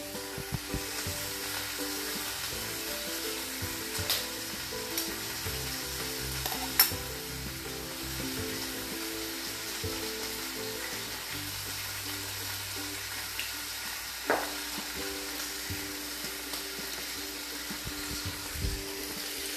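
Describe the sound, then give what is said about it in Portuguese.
An egg fries in a pan, cooked with a soft yolk, giving a steady crackling sizzle throughout with a couple of sharper clicks standing out above the spitting fat. “Agora eu vou fritar um ovo.”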